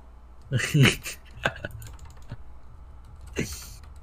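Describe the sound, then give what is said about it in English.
Typing on a computer keyboard comes through as a few scattered, irregular clacks and taps, faint and sparse rather than a continuous stream. “I'm gonna type that out of context in general.”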